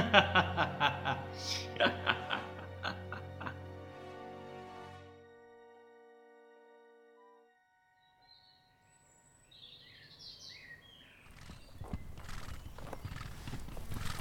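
Horses' hooves clip-clop at a walk under riders in the saddle on a long journey toward Beauvais. A steady run of fairly loud hoofbeats fills the first few seconds, then fades, and a softer rustling noise rises near the end.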